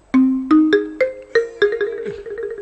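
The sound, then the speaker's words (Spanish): A marimba ringtone: a quick stepwise run of bright mallet notes climbing in pitch, loud and alone, with one tone sliding downward near the end. “¿Has traído la marimba para el comienzo del año? Por supuesto. A ver, con marimba y todo...”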